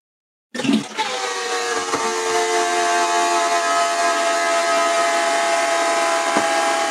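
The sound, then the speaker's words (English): A toilet flushes with a strange sound, a loud, steady rush laced with sustained whistling tones that starts abruptly after a short silence and holds to the end. “Can somebody tell me why my toilet sounds like this?”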